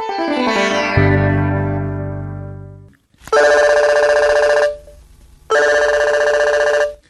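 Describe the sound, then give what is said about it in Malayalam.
A telephone rings on an outgoing call in a radio drama, with two long, loud, steady electronic rings separated by a short gap. A falling electronic tone comes before the rings. “ഞാനൊന്ന് സുരേന്ദ്രനെ വിളിക്കാം”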